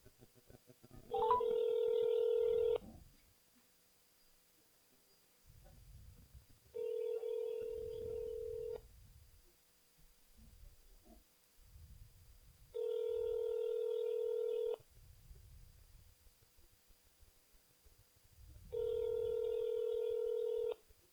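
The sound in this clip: Ringback tone of an outgoing telephone call: four steady, evenly spaced electronic tone bursts, each about two seconds long, separated by longer pauses filled with faint low rumble.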